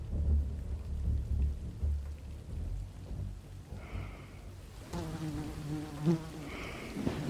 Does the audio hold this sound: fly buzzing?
yes